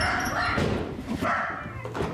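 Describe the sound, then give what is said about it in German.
Loud barking from a Jack Russell terrier with an artificial hip: a few sharp, forceful barks standing out over steady background noise. “Hotdog, Andreas' Hund, mag zwar eine künstliche Hüfte haben, doch lautstark bellen kann der Jack Russell immer noch in alter Frische.”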